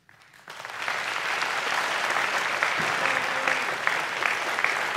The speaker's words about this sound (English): No cheers, boos, or other interruptions, except right now, as we welcome to the stage former Vice President Joe Biden and President Donald J. Trump.